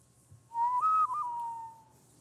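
A whistled western movie theme melody: one loud, clear human whistle heard alone, holding a steady tone, then briefly stepping up in pitch before settling back down and fading over about a second and a half.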